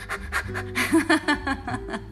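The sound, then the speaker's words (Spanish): A voice imitates a dog's panting in a Kapalabhati breathing exercise, producing many rapid, breathy huffs in an uneven rhythm with some voiced tone, at moderate loudness. “como puede ser así tipo jadeo de tu perrito o tu perro, así, cuando llega de caminar o de trotar”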